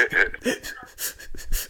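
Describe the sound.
A voice imitates strained, labored breathing, as if struggling to breathe, with a few breathy gasping pants in uneven rhythm.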